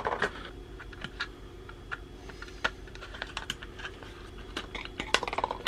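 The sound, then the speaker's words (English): Cutting the damaged part off a broken bird feeder, heard as many irregular sharp clicks and snaps, mostly faint with a few louder cracks, the loudest at the very end. “So what I'm going to do is I'm just going to cut it down. Get rid of the bit he's broken.”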